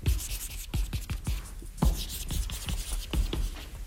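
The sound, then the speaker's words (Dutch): Repeated rubbing and scratching strokes of drawing an emoji on a board, many short strokes in an uneven rhythm, fairly faint and with no voices. “Goed, ik zal even een emoji tekenen op het bord.”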